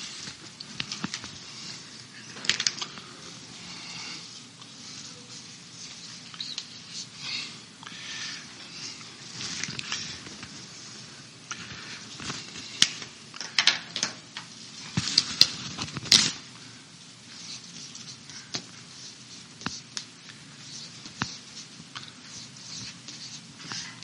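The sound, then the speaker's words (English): Someone writes on a board, making faint, scratchy strokes and light irregular taps that come and go quietly over a long stretch, with no talk. “I'm going to write a few things on the board here.”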